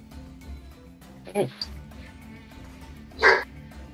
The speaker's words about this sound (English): Bark. That was my angel boy who barked.